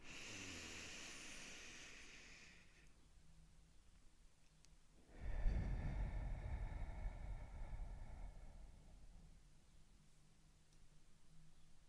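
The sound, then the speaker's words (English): Slow, deep breathing: a soft, airy inhale through the nose, a pause, then a longer and fuller exhale through the mouth. Both breaths are faint and unaccompanied. “Let's take a deep breath in through our noses and now through our mouth.”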